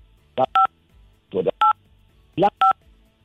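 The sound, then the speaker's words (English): Telephone keypad tones pressed by accident with a caller's cheek during a call. Three separate clear beeps are spaced about a second apart, each following a short, muffled burst of sound. “Oh, I think you're dialing the phone with your cheek and it's interfering with your voice, and also it's making for poor quality conversation.”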